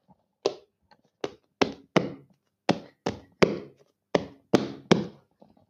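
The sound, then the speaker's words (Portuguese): About ten firm thumps of a hand or foot beating on the floor, struck in a repeating rhythmic pattern for a song beat, with a few faint taps between groups and no voices. “Eu vou bater no chão.”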